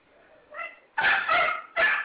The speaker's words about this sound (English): Tell that dog to shut the fuck up.